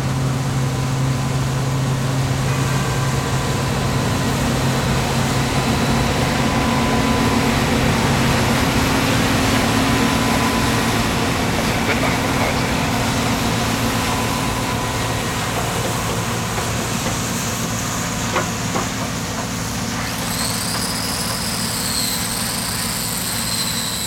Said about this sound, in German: Ein polnischer Mähdrescher aus den 1980er Jahren, ein Bison